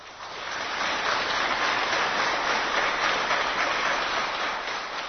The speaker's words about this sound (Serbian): Promociji knjige prisustvovali su i borci sa Košara, koji su pozdravljeni aplauzom.